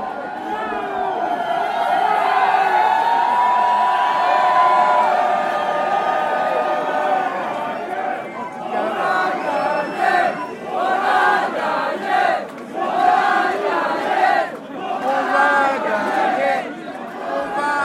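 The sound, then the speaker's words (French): A crowd gathers for a farm victory celebration at a cowshed, making a dense, steady murmur of many voices that continues throughout, with livelier, uneven chatter in the second half. “Ouais, il y a pas mal de monde qui arrive doucement là. On entend la rumeur. Il y a du monde à la vacherie.”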